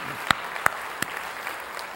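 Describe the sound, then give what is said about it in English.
Church audience applauding to welcome first-time guests on Pentecost Sunday, a steady, dense patter of clapping with a few sharper individual claps standing out. “Can we just put our hands together and welcome our first-time guest today?”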